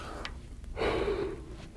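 A single forceful breath is exhaled into the microphone as a sermon illustration of God's breath. It is a soft, breathy rush lasting about half a second, with quiet room tone on either side.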